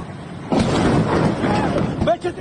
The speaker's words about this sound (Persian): این صدای مرد جوانی است از بندر عباس که در اینستاگرام از گرما و بیبرقی میگفت و ناگهان صدای جنگنده آمد و بعد بمباران.